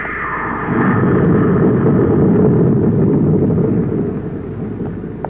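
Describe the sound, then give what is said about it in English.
A rocket blasting off through a space lock, a loud, sustained rumbling roar that swells after the first second, holds steady, then eases slightly toward the end. “Clear that rocket blast.”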